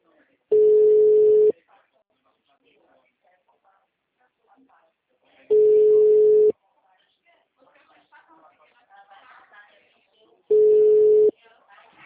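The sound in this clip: Steady telephone tone after a dropped call: three even, mid-pitched beeps of about a second each, spaced roughly five seconds apart, with faint low noise in the gaps.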